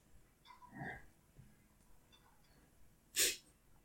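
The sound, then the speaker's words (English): A man in a TV show gives one short, sharp cough. The brief explosive burst comes near the end and stands out against a quiet background with faint breathy sounds earlier. “Now, he coughs, and then everyone wakes up like, what? He gave the pig blood rope trick cough.”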